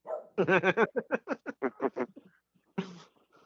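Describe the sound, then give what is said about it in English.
A dog barks agitatedly at neighbor kids riding past on bikes, letting out a rapid string of many loud barks, then a short pause and one final bark. “Why is the dog mad? Because the neighbor kids rode by on bikes.”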